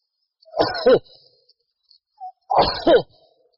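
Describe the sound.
Two sneezes from a man during a religious lecture, each a sharp two-part burst, separated by a short pause with no speech.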